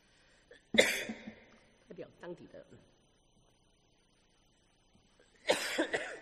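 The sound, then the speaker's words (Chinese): Two sharp, harsh coughs from a man, one near the start and one at the end, with quiet speech between them. “不好意思啊，有点咳嗽。”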